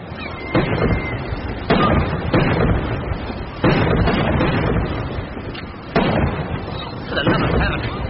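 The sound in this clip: Cannon fire from a naval ship arriving at its home port, a gun salute for an admiral's flag: several loud, booming reports spaced irregularly, each trailing into a rumbling decay.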